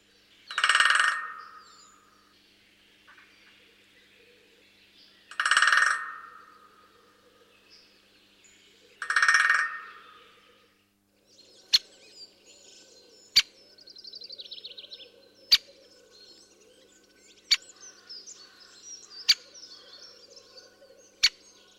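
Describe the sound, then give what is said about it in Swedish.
A great spotted woodpecker gives three loud, rattling bursts at roughly even intervals, followed by about six sharp, short single notes over faint background birdsong. “det är som sagt den större hackspetten som brer ut sig mer och mer. Och som låter så här.”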